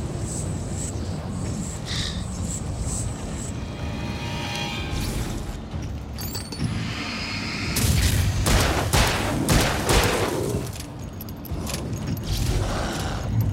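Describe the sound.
Pistol gunshots in a zombie video game: a few sharp, noisy cracks burst out in the second half over a dense, busy game soundscape with steady background rumble.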